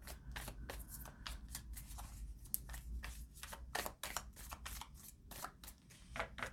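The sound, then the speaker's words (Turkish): Tarot cards are shuffled in many quick, papery riffling bursts, moderately quiet over a low steady hum, with no voices. “Size bir kart seçeceğim.”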